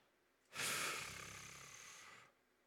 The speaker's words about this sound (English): All right, here's another one. Look. I'm let me take a breath.